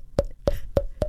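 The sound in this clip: A voice imitating a wooden fish temple block: four evenly spaced, hollow, tonal knocks in a steady rhythm, fairly faint.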